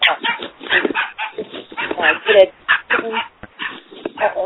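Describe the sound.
A dog barks over a phone line during a group conference call. Repeated yapping barks come through a thin, narrowband line, mixed with people talking throughout.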